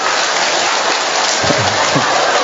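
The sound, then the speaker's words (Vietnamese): Applause from a church audience honoring a mother, dense and steady clapping that fills the whole clip at an even, loud level, with a few low thuds near the end. “Cho một tràng pháo tay thưa anh chị em.”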